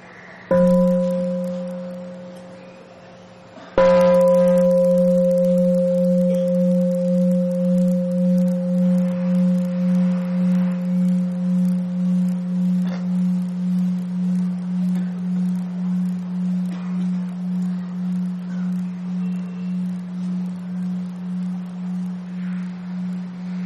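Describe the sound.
A meditation bell rings at a Buddhist mealtime, with a soft first tap and then a full strike whose deep, pure tone hums on for about twenty seconds, pulsing gently as it slowly fades.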